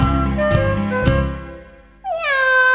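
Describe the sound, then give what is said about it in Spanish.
A cat meows in a kitchen: one clear, bright meow that bends downward in pitch, following a couple of seconds of a steady sustained tone. “Escuchemos la gata de Doña Emelina, que está maullando en la cocina. ¡Miau! Esa es la gata de Doña Emelina.”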